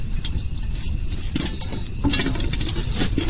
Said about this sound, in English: Wow, popcorn on a real fire.